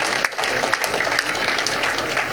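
Audience applause at a sailing event, many hands clapping in a dense, steady patter that stays loud and continuous from start to finish.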